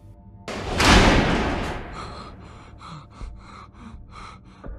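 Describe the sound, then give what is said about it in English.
Prison cell doors slam shut on a cell block: one heavy crash with a long ringing decay, then a series of quieter, rhythmic pulsing clanks and a few low thuds. “then, one by one, the rest of the open cell doors on that pod slammed shut.”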